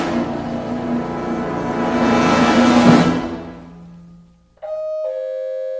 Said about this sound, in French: Ça a sonné.